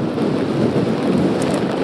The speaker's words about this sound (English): San Rafael as this second wave of rain and wind is blowing through right now